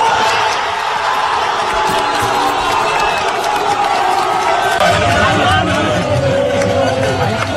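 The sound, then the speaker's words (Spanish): Football fans cheering and shouting in a street at night in Almuñécar, celebrating after a match: a dense, continuous roar of crowd voices with scattered whoops and no pauses throughout. “la afición prolongó una noche que ya forma parte de la memoria colectiva, ambiente en los bajos del Fenicio de Almuñécar”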